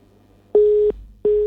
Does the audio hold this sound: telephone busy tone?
yes